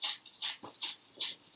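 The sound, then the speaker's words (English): A shakapa leaf rattle, the traditional instrument of ayahuasca ceremonies, shakes in soft, dry, rustling bursts at a steady rhythm of about one every 0.4 seconds. A faint low thump is heard between the bursts. “I'm gonna play what's called a shakapa. A shakapa is the instrument that's traditionally used in the ayahuasca ceremonies. It's like a leaf rattle. So it's very similar to a rattle, but it has a softer sound.”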